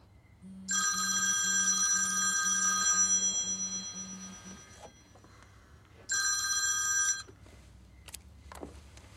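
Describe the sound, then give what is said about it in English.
A telephone rings after a call is dialed, a bright trilling bell in two bursts: one long ring and then a shorter one after a brief pause. “She dials her phone.”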